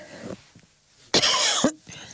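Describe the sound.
A single sharp, loud cough from a tickle in the throat, set between brief stretches of quiet talk.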